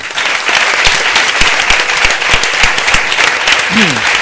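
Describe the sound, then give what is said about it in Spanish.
Applause from a live audience in tribute to two people: loud, dense clapping that holds steady throughout, with a brief voice near the end. “si nos importa, un aplauso para ellos dos.”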